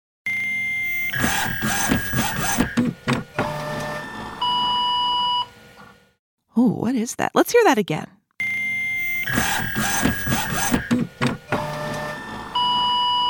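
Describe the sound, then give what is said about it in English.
Fax machine transmitting: a busy sequence of electronic beeps, steady tones and harsh warbling screeches, broken by a short burst of people talking, after which the same chain of tones plays through again. “So, what's that sound? A fax machine.”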